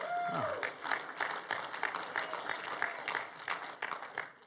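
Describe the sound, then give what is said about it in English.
A church audience claps during a Sunday morning service, with dense applause of many overlapping sharp claps running steadily through the whole stretch at moderate loudness. “we like to clap around here if you haven't figured that out.”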